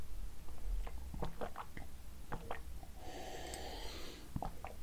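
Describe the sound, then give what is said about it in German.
Sip of a sponsor drink called Kranberger: quiet mouth clicks and small swallowing noises, with a brief soft hissing slurp in the middle. “erstmal einen kleinen Schluck hier wieder nehmen aus meinem Sponsorgetränk von heute”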